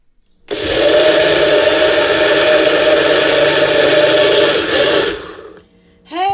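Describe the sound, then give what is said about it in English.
A blender whirs through a peanut butter and jelly smoothie made with oat milk and bananas. It starts abruptly into a loud, steady high whir that lasts about five seconds, winds down, then gives a brief final burst. “Hey guys, you just caught me right in the middle of making one of my most favorite smoothies. I call it peanut butter and jelly.”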